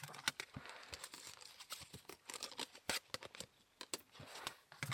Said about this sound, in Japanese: まずはプラスチック系カード、